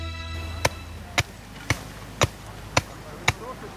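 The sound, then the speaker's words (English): Six sharp, evenly spaced axe strikes as a hedge is laid, each a crisp woody thwack about half a second apart over a low background hum. “Now that is the sound of a hedge being laid with an axe.”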